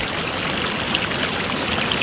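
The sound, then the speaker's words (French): Water rushes steadily as a river flows, with a dense, even hiss throughout and no voices. “Puis un jour, elle entend la rivière qui dit”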